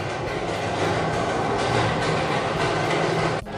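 Train station ambience at Gambir station in Jakarta: a steady, dense wash of rail rumble and crowd noise holds at an even level throughout, briefly dipping near the end.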